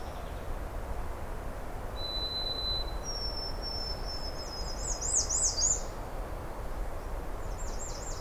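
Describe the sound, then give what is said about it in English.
Faint birdsong of white-throated sparrow, house wren, American redstart and blue jays near a lake: a held pure whistle, then a longer whistled phrase ending in quick warbling notes, over a steady soft background hiss. “But white-throat sparrow, house wren, American redstart, blue jays.”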